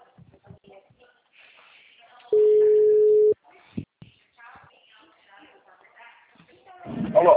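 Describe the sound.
A busy tone sounds on a phone line after a dropped call: one steady, even beep about a second long, with soft talk before and after it.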